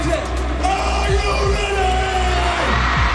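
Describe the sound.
Concert crowd of about 70,000 fans cheering for a South Korean boy band in Munich: a dense, loud, continuous roar with scattered whoops and shouting voices that holds steady throughout.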